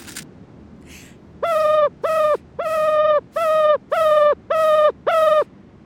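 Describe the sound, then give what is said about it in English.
Ruffed grouse call: seven evenly spaced, mid-pitched harmonic notes in a steady rhythm. The notes are fairly loud and are preceded by a couple of faint, higher sounds. “Okay, that was the call of a ruffed grouse.”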